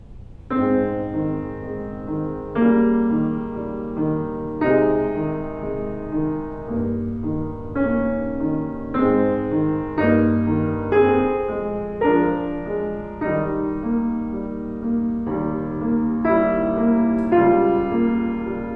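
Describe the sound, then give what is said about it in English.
Piano chords flow with the sustain pedal lifted and pressed again at each change of harmony, so the notes ring into one another and blend richly. The phrase moves at a steady, unhurried pace with no voices. “Now, if I just use the pedal and put it down as soon as the harmonies change and lift it up and put it right back down again, right on the change of harmonies as described in the first video, it would sound like this.”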